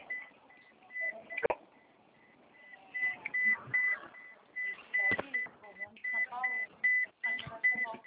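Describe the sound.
A car seatbelt warning beep repeats many times in a steady rhythm, high and thin, continuing under a person's talk throughout.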